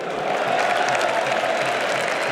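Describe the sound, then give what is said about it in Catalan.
A stadium crowd applauds during FC Barcelona's league title celebration speech, a steady, even wash of clapping and crowd noise that holds at a constant level. “Cada vegada que acaba la frase, els jugadors del Barça van aixecant les mans al públic, com dient, aplaudim, aplaudim.”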